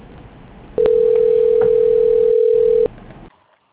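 A steady electronic telephone tone plays while a call to a bank is transferred. The single pitch holds loud and unbroken for about two seconds before cutting off, with faint line noise around it.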